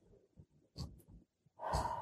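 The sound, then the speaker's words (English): A deep breath in through the nose and out through the mouth comes across as soft, faint, breathy puffs, ending in a louder, airy rush of breath. “So take a deep breath right now.”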